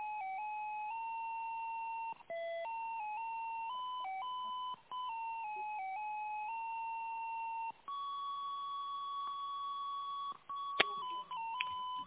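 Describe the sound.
Phone call connection tones as a call tries to go through: faint, sustained electronic tones that change pitch every few seconds, separated by brief gaps, with a few clicks near the end and no speech.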